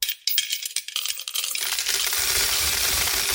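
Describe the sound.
Coins dropping into a piggy bank: a few sharp metallic clinks, then a dense, continuous rattle that holds steady to the end.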